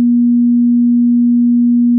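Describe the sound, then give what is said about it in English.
A continuous pure tone, steady and low-pitched, holding one unchanging pitch and level for about two seconds with nothing else audible. “nothing but a continuous tone, and it sounds like this.”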